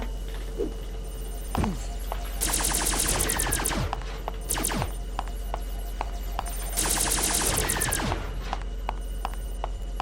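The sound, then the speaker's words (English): Video game gunfire while shooting weird robots in a lab: two long bursts of rapid, crackling automatic fire with scattered single shots between them, over a steady low hum. “Walking through the lab, shooting weird robots.”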